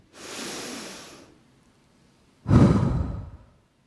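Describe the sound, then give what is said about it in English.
One deep breath is taken: a soft, drawn-out inhale, a short pause, then a stronger and louder exhale, with no talking. “take a deep breath in, and let it out”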